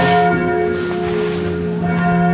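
A church tower bell above Marienplatz strikes the hour: loud, sustained ringing with rich overtones that hum steadily through the whole clip.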